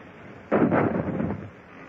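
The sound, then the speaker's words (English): A ship's cannon fires one shot into an enemy vessel's rigging during a naval battle: a single sudden heavy boom with a rough, rumbling body that holds for about a second before cutting off. No voices are heard. “Gunlayers, change point of aim. Fire into our rigging. Ready? Fire!”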